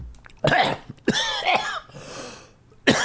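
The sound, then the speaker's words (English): Coughing after choking on saliva, a few harsh bursts in quick succession, a short pause, then one more loud cough. “You ever taken too much saliva by accident? You're not supposed to choke on the podcast.”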